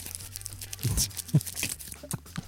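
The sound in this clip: Crinkly rustling and tearing from a packet of black currant licorice imported from Wales, with a few louder crackles among softer scattered crackling.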